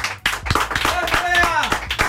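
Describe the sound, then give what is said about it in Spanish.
Audience applause for a guest cook on an entertainment show: rhythmic clapping with sharp, evenly spaced claps, running under a talking voice for the whole clip. “Aplauso para Bea una vez más.”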